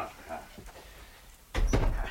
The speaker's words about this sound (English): Yeah, close the door, it's freezing.